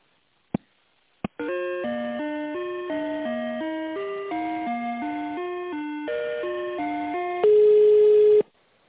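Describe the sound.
Telephone line tones sound as a call is transferred: two sharp clicks, then a quick run of stepped electronic notes like a short tune, ending in a louder steady beep that cuts off. No one speaks.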